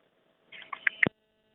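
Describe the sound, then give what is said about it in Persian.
Telephone line tones sound as a listener's call drops: a quick cluster of a few short, bright beeps ending in a low thump, heard alone against silence. “بله، تماس این شنونده ما متاسفانه قطع شد.”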